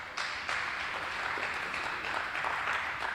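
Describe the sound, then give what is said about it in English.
Audience applause follows a talk at a presentation event, a steady wash of clapping that starts just after the opening moment and holds evenly to the end. “Please give him a round of applause for that.”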